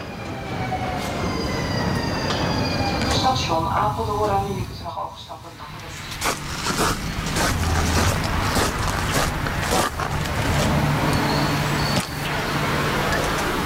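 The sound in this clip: Train ride with steady rumbling rail noise and high whining tones that slide downward early on, a brief quieter dip midway, then a run of sharp clacks over the continuing rumble.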